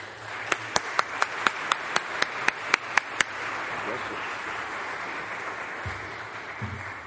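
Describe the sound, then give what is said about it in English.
Hands clapping as a church audience welcomes a speaker to the pulpit: a steady series of sharp, evenly spaced claps lasting about three seconds, then quiet. “Let's give him a hand.”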